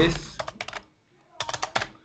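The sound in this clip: Someone types on a computer keyboard in two quick bursts of clicking keystrokes separated by a brief pause, with each burst made up of several rapid, crisp taps.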